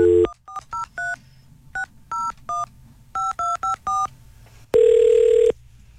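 A touch-tone telephone keypad dials a number to call someone back. A quick, irregular run of short two-pitch beeps ends in one longer, steady tone, with no voices.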